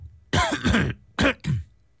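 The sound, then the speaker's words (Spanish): A person coughs and clears their throat in a few harsh, throaty bursts separated by short pauses, loud and without speech. “No, es que me tengo tos.”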